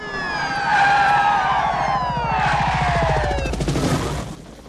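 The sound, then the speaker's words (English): Wailing sirens of police squad cars pulling in from both directions: several loud overlapping siren tones sweep downward in pitch together, staying strong throughout before dropping off at the very end. “Police squad cars pull in from both directions and the police helicopter swoops in again.”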